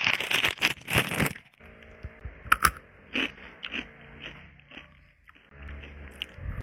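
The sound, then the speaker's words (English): Biting and crunching into Takis rolled tortilla chips: a rapid cluster of loud, sharp crunches at the start, then scattered softer crunches and chewing. “صار في تاكيز بلبنان. خليني ذوقهم قدامكم لأول مرة. تاكيز.”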